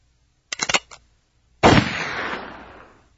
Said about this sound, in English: That's about 3 seconds of silence with a suicidal gunshot.